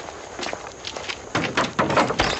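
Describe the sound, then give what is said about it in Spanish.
Running footsteps hurry to open a door in a radio drama: many quick, muffled steps that grow louder toward the end. “Voy a ver quién es. Corre a abrir la puerta.”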